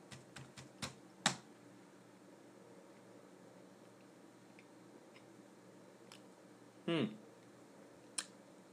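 Typing a web search on a computer keyboard: a quick run of sharp key clicks, then sparse, quiet taps with a short rattling burst later, all faint over a low hiss.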